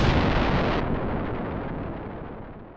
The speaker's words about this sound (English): they brought this gigantic fleet with lots of nuclear bombs, and they're just moving around the city in a circle, bombing the heck out of it.